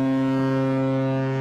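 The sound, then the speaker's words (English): A 1,000-foot lake freighter blares its horn while gliding beneath a lift bridge in Duluth: a loud, steady, low, rich tone held without a break. “That's the sound of the ship American Century blaring its horn as it glides beneath the area lift bridge into Duluth.”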